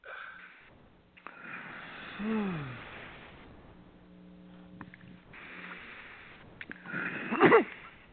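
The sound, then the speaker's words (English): Deep breathing during a guided breathing exercise: a few long, airy breaths, soft and unhurried, separated by quieter pauses, with the final breath the strongest. “So let's breathe again.”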